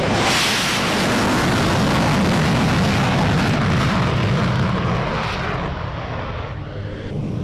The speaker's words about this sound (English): Okay, the last of these F-16s to take off. Wait for the kick.